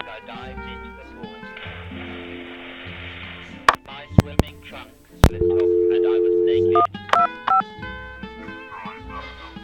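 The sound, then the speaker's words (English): A telephone is dialed with a three-digit number and connects: a few sharp clicks, then a long steady tone, then a run of short beeps, with people talking around it. “Okay. Let's dial 1, 2, 5.”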